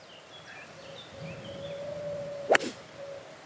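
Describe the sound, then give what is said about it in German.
A golf club swings and strikes a ball during a round on a hillside golf course: one sharp, crisp impact with a brief trailing echo, standing out against a quiet background with faint tonal hum. “Äh, ich schlag wohl noch ein. Sieht aus, als wäre der weg.”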